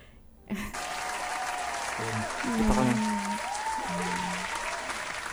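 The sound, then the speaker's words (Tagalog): Applause sound effect: dense clapping starts abruptly after a short pause and runs steadily and loudly to the end, with faint voices over it. “Wala bang sound ng clap clap dyan?”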